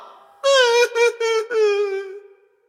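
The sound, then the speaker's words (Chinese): A rooster character crying, performed by a human voice: four drawn-out, wavering sobbing wails, the last one longest and fading away. “哎，你别哭啊，别哭。”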